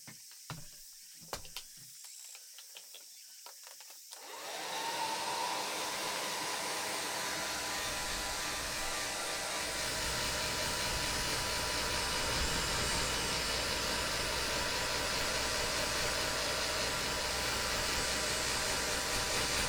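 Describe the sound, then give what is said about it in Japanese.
A hair dryer blows while drying hair. It starts after a few seconds of faint clicks and rustles, then runs as a loud, steady whooshing roar to the end. “乾かしますね。”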